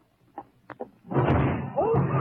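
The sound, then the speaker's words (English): A door falls onto a person. A few soft thumps come first, then a loud, sustained crash and clatter as it comes down, and a voice cries out over the noise. “Get me out from under this door!”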